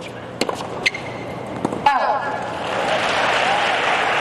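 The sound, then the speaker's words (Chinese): A home crowd at a US Open tennis match cheers and applauds for Townsend: a few sharp hits early, then broad clapping swells and holds steadily to the end, with a voice talking over it. “现场观众也都在给汤森德加油，毕竟是主场作战”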